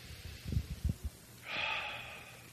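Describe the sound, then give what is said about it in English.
A deep breath is taken: one long, soft, airy breath lasting about a second, quiet and alone, preceded by a few faint low thumps. “take a deep breath”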